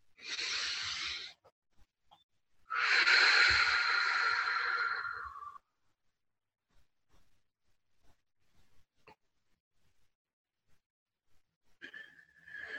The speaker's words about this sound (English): by taking a deep breath together